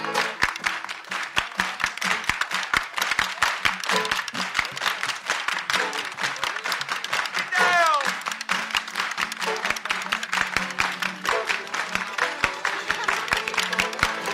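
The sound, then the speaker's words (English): Audience hand clapping keeps a steady, even beat along with a live song, loud and regular across the whole stretch while the music plays underneath. “Let's hear some clapping now.”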